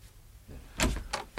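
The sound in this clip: A door is being opened, heard as a few sharp mechanical clicks and clacks of the latch and handle, short and moderately loud against quiet surroundings.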